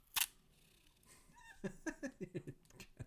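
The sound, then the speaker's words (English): Adhesive tape is handled: a sharp faint snap, then a quick run of several crackly ripping pulls, all quiet. “What are you doing with that tape?”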